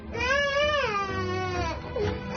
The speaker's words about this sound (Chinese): 这孩子哭得特别好，哭出了妈妈的心声。